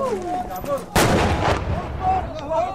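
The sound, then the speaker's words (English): An artillery shell lands close to a rebel firing position: one sudden loud boom with a rumbling tail lasting about half a second, with people talking before and after. “One of the shells just landed very close to the position that the rebels were firing from. I can still see the plume of smoke, maybe 50, 100 metres away from where I am now.”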